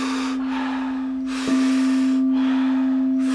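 Deep breaths drawn during a guided breathing exercise come as a series of loud, airy rushes in a steady rhythm over a constant low humming tone.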